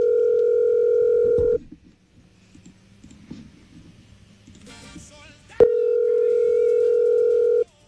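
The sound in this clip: Unanswered telephone ringing heard as the caller's ringback tone: a loud, steady buzzing tone about one and a half seconds long, a silent pause with faint clicks, then the same tone again.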